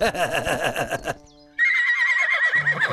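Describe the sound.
A horse neighs in a loud, wavering whinny lasting about a second, then falls briefly silent before a steady, higher-pitched sound follows.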